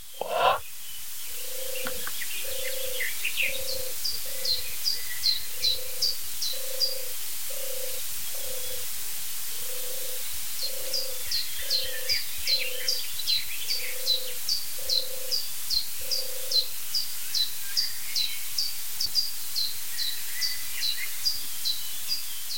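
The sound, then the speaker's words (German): European turtle dove cooing: a soft, low purring note repeated many times in a steady rhythm, with high, thin chirps of other birds and a constant hiss behind it. “Ich stelle fest, dass ich einfach zu wenig weiß über die Turteltaube, weil die so heimlich ist, muss man was lesen über die. Also sie ist auf jeden Fall eine Zugtaube”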